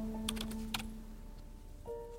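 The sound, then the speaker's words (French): Typing on a computer keyboard to enter a Google search, heard as a few faint key clicks over a steady low hum. “Je tape Sugar Daddy sur Google.”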